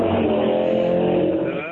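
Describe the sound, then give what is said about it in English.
A motorbike rides off, its engine a loud, steady humming drone that holds briefly and then fades toward the end. “And that's the sound of Frank getting the hell out of there on his bike.”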